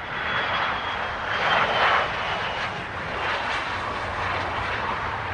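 An airplane roars low over the road at the back of Dublin Airport, a steady broad engine drone that swells slightly partway through and then holds, with no voices.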